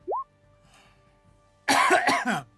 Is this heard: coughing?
yes